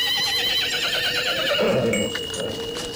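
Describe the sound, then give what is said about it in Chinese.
A horse hitched to a waiting carriage whinnies with a loud, wavering, high neigh that shakes in pitch, then drops into a softer, lower tail before fading. “门口早有马车在那里等着”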